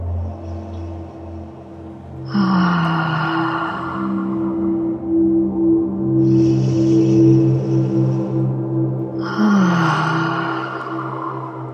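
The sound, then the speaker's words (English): Deep inhalations during a breathing exercise: three long, breathy intakes of air, spaced a few seconds apart, over a steady low tonal hum. “So we will do it together, these 10 breaths. Breathe in. Breathe in.”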